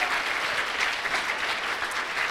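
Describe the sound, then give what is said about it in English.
Steady audience applause for a sponsor at a lunch event, a dense, even wash of clapping hands that holds at a constant level throughout. “If you would give him a round of applause, please.”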